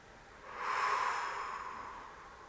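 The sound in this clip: A slow, deep exhale during a breathing exercise: one long, airy breath that swells in the first second, then fades gradually and softly, with no talking.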